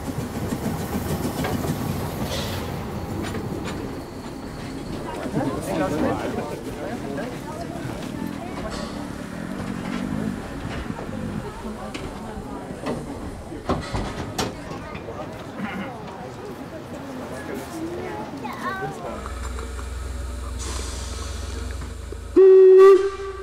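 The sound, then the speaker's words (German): The Rasender Roland, a narrow-gauge steam train running from Putbus, rumbles and clatters steadily under people talking, then gives one loud, sustained whistle blast near the end. “Ja, nächste Haltestelle Lauterbach. Wir fahren hier von Putbus aus, natürlich mit dem rasenden Roland.”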